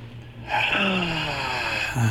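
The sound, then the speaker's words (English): A deep inhale drawn in through the nose during a guided relaxation breathing exercise, one long steady breath lasting about a second and a half, starting after a brief quiet moment. “3, 2, 1, all the way in through the nose.”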